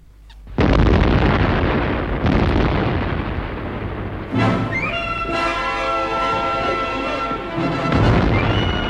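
A car bomb loaded with a special explosive mix goes off in a loud, sudden blast, followed by a long roaring, crackling rumble and a second burst as the car is wrecked, with ringing tones lingering afterward.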